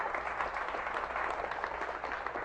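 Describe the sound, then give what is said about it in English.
Steady crowd applause, an even, dense patter of many hands clapping at a fairly low level from start to finish, with no voices standing out. “That should be applauded.”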